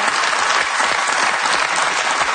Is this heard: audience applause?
yes